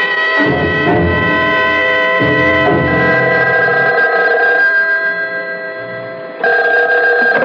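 A telephone bell rings loudly in repeated bursts of bright, sustained metallic tones. The ringing fades slightly before it starts again, and no voices are heard.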